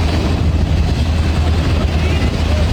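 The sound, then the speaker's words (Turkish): Military helicopter taking off from a highland pasture on a rescue flight, a loud, dense engine-and-rotor roar with heavy low rumble and broad noise that stays steady throughout. “Askeri helikopter yaylada rahatsızlanan yaşlı kadın için havalandı.”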